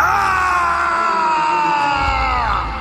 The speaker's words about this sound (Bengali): বিলাস গৃহের বাকি নমনীরা যথাসাধ্য চিৎকার করতে লাগলেন। বিমলাও চিৎকার করতে করতে ছুটলেন।